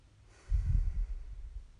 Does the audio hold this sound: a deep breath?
yes

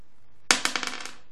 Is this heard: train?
no

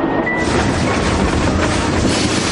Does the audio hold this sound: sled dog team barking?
no

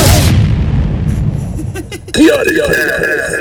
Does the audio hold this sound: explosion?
yes

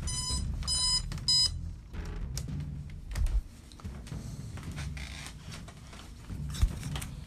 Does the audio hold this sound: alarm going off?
yes

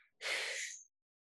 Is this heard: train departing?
no

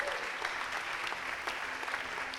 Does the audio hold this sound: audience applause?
yes

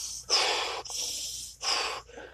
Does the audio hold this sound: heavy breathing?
yes

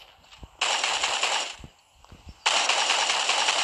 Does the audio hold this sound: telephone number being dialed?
no

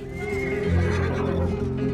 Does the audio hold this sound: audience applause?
no

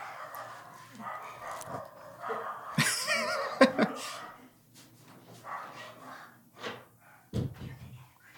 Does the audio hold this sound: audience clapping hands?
no

